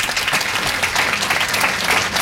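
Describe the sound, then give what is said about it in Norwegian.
Steady, dense applause from an audience at a discussion of a novelist's work: loud, continuous clapping throughout with no pauses and no talk over it. “applaus for Murakami der”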